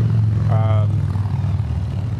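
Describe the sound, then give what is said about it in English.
A loud motorcycle passes with a low, rumbling engine roar that holds steady throughout, and a brief voice is heard over it partway through. “Ooh, that's a loud bike.”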